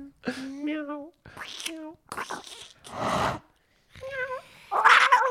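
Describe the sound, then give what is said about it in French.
Cat meowing: several short, harmonic meows rising and falling in pitch, separated by pauses, mixed with some breathy, noisy sounds. “Attends, c'est un vrai chat, ça.”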